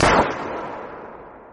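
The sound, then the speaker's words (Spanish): A single pistol shot fired among hillside slopes beside sand: one sharp, loud blast that decays into a long, rolling, rumbling tail with no other sounds. “El estampido del disparo rodó laderas arriba y regresó laderas abajo.”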